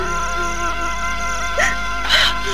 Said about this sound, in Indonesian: Nona, mengapa engkau menangis?